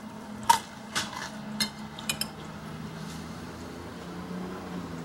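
Light clinks of a spoon and cutlery against dishes at a lunch table with soup and white wine: five faint, bright taps spread over two seconds, then a quiet low background hum.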